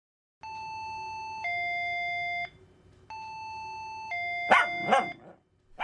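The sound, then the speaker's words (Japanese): An electronic doorbell at an apartment door rings twice. Each ring is a sustained high chime that steps down to a lower tone, and a few sharp dog barks break in over the second ring. “ベルを押していると”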